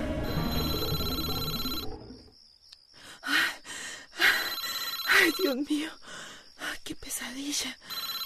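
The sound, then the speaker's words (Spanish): A telephone rings loudly for about two seconds in a dramatic scene, then falls silent and is followed by gasps, sighs and people talking. “El teléfono.”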